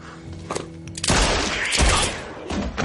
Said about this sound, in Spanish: Judy dispara a Minnie y a Ed. Joe abate a Judy y Mowgli a Gemma.